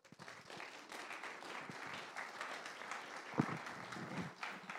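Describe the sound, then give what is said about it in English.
Church audience applauds to welcome a speaker, a steady, soft wash of many hands clapping without a pause for about five seconds. “So will you help me welcome Tyler this morning?”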